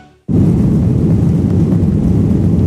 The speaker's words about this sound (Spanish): Y hoy nos hemos subido de nuevo a un avión de Iberia.